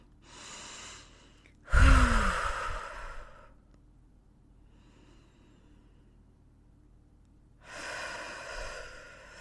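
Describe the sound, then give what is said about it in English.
Deep breaths are taken during a breathing exercise: three breathy breaths separated by quiet pauses. The first is soft, the second is loud and forceful, and the last is moderate and drawn out. “I'm going to do 2 more breaths.”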